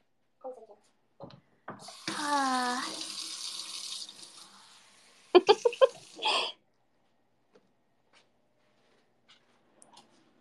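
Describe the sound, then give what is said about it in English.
Tap water runs into a dirty sink being cleaned, a steady hiss lasting about two seconds. People talk in short bursts before and after, with a few small clicks. “I need you to clean up the sink.”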